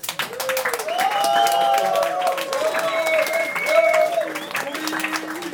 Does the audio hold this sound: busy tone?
no